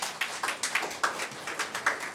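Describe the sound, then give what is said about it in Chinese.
Church audience applauding for members aged eighty and over, a soft, scattered patter of claps with an uneven rhythm and no voices over it. “有冇八岁嘅弟兄姊妹？我所谓八岁嘅咧，即系话八十岁以上。举下手先，有啊，俾啲掌声。”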